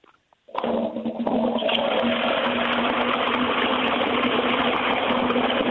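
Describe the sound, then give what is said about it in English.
A modern toilet flush: after a faint click, a loud rush of water starts abruptly and carries on as a steady, dense roar with a low underlying hum until the end, with no voices. “We're going to compare it to the British Toilet Association modern flush and see if we can tell the difference.”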